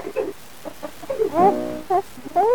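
An infant cries in its mother's lap: a few short, harmonic wailing bursts with a wavering, rising pitch, growing louder toward the end.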